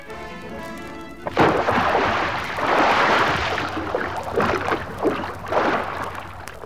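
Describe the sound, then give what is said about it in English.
Someone diving off a pier hits the water in a sudden splashing burst, followed by churning, rushing water noise with a few more surges of splashing as it settles. “I'm diving off this pier, and when I do, you'll never catch me.”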